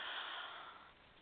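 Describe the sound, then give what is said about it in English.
A single conscious breath drawn in and let out through the mouth, heard as a soft, airy hiss that runs steadily and fades slightly toward the end, with no talking. “let's take one conscious breath in and out the mouth.”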